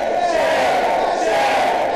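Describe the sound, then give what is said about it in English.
A large crowd of gas drilling opponents chants at a commission meeting, a loud, unbroken wall of raised voices that holds steady for two seconds. “They erupted into chants, holding signs that said shame.”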